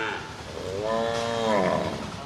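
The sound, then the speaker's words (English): A cow moos at an organic dairy farm in the Chambal industrial area of Kota, Rajasthan, India, giving a long, drawn-out, loud lowing call that swells and fades, heard alone. “At an organic dairy farm in the Chambal industrial area of Kota, cows are said to fart and burp less than cows in the rest of the country.”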